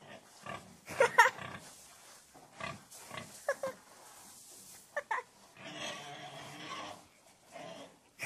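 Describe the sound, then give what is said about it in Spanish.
Pigs squealing in a pen while someone tries to catch them: several sharp, high squeals in irregular bursts between quieter grunting. “Prudencio está en el corral de los cerdos, intentándolos atrapar. El chillido característico de estos animales llama la atención de Rafael”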